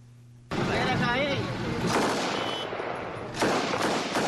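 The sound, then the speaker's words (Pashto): Celebratory aerial gunfire at a wedding in Paktia erupts suddenly into a dense, continuous roar of overlapping shots, swelling with a louder burst near the end, with voices mixed into the din. “دا د جګړې یا د کوم فلم د جنگي صحنې غږ نه دی، بلکې په پکتیا کې د واده په مراسمو کې د ټوپک د هوایی دزو غږونه دي چې ظاهرا د خوشحالۍ څرګندولو په خاطر کوي.”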